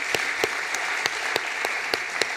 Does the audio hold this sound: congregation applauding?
yes